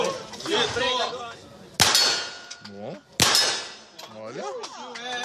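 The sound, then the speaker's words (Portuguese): Gunshots from a video of a president shooting a gun: two sharp, ringing bangs about a second and a half apart, with people talking before, between and after them. “Basta fazer uma busca no YouTube que a gente encontra vários vídeos do presidente Bolsonaro atirando.”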